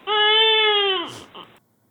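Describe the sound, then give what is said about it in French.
A comic crying sound effect stands in for an absent host's empty seat: a sustained whiny wail whose pitch drops at the end, followed by a short breathy sob. “Si vous écoutez bien, on peut entendre son siège qui est en train de pleurer. Pauvre petit siège.”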